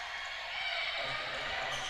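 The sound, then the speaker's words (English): A basketball is dribbled on a court during a game, with faint repeated bounces under a steady wash of crowd noise in the gym. “Husky now on the half-court circle, dribbling to her right, crossover dribble back to the left”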